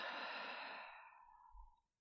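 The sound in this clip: A long exhale through the mouth during a deep-breathing exercise, a soft breathy rush that fades away over about two seconds, faint and alone.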